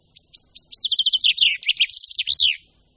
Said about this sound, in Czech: Pěnku obecnou poznáme velmi snadno podle dvou nápadných světlých pásků na křídlech a také podle bílého olemu ocasních per.